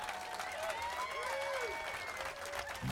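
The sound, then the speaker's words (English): Audience applause welcoming a performer introduced at a festival music workshop, a dense, steady wash of clapping that holds at an even level for the whole stretch. “Give him a big hand.”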